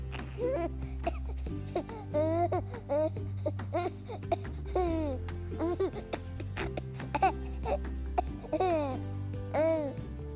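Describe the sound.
A baby fusses and babbles through many short coos, squeals and whiny cries while board books are read to him. The bursts are uneven, over a steady low hum, with some speech mixed in.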